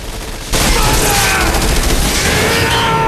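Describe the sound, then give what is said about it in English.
Guards open fire and bullets ricochet off walls: a loud volley starts suddenly and runs as a dense, continuous barrage, with brief whining ricochet tones flickering through it. “The guards open fire as Nomak pushes through another door. He leaps across the gap onto the drawbridge. Sparks fly as bullets ricochet off the walls around him.”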